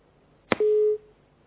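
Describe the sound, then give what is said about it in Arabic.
A telephone busy tone after a dropped call: a sharp click, then a single steady mid-pitched tone burst lasting about a third of a second, fairly loud and clean, with no talk. “اتصال قطع. اتصال تاني.”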